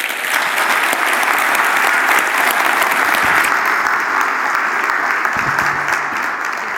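A church audience applauds to welcome a retired pastor, steady dense clapping sustained at an even, fairly loud level for the whole stretch, without voices rising above it.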